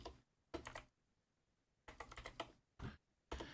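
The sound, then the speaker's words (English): Someone types a web search on a computer keyboard: quiet clusters of rapid clicking keystrokes in four short bursts separated by pauses. “I'm going to type in VMAs and see if it comes up. If it don't, I'll do the specific search.”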